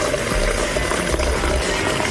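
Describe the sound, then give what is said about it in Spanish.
Water being poured into a thermos for mate makes a steady, unbroken rushing and gurgling stream at a fairly loud level. “Estamos llenando el termo. Se vieron unos mates.”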